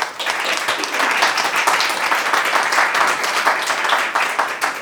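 A studio audience applauds to welcome a guest theatre historian, with steady, dense clapping that holds at an even, fairly loud level for nearly five seconds without talk.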